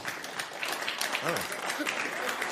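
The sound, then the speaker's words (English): Audience applause fills the room with continuous, dense clapping; a brief voice rises over it midway through. “Look how easy it is to get them to applaud.”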